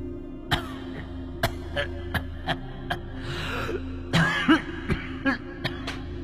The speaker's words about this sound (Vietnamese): và cả tiếng bố của hai ông ấy đang ho khổ khổ vọng lại.